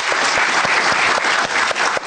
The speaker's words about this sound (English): Clap, clap, clap.